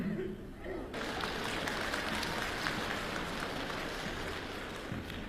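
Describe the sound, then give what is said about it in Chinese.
Audience applause during a stage comedy sketch at a Beijing comedy show, a dense, steady patter of clapping that runs through the whole clip at an even level. “您还鼓掌呢？”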